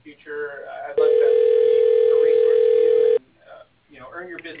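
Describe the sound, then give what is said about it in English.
A telephone line tone plays while a call to an advertising office is transferred: one steady, unbroken mid-pitched tone that holds for about two seconds, with speech before and after it. “Please hold while your call is being transferred to Jim Stupar.”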